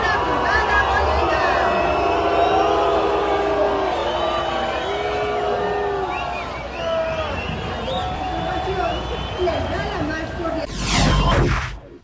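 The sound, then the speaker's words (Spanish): A large crowd at a World Cup celebration in Mexico City jeers the city's head of government, many voices rising and falling in a sustained roar, ending in a brief loud burst of noise. “No me quedó claro si fue abucheo, ¿no? Sí. Estaban diciéndole brugada. Brugada. ¿Sí? No, sí fue abucheo.”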